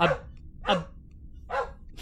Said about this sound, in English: My dog is going nuts.